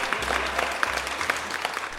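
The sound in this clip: Applause greets two quiz contestants on a quiz show: steady, dense clapping from an audience that holds evenly for the full two seconds, with no voices on top.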